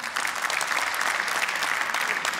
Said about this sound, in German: Mal Applaus.